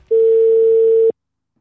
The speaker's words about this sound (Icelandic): nú læt ég bara vaða símtal á hann